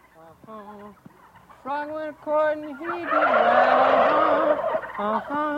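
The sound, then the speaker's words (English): Turkeys gobble in a loud, rattling burst behind a man singing an old folk song, the warbling gobbles swelling up midway and running on under his voice. “you can hear the turkeys in the background”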